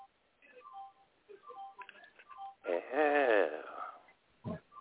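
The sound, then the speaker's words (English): An alarm going off at nine o'clock, sounding as a run of thin, short electronic beeps followed by a louder, warbling burst, all with a narrow, muffled tone. “That's the alarm. The alarm is going off.”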